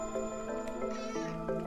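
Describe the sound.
A cat meows in a few short, drawn-out tonal cries, fairly faint and close together.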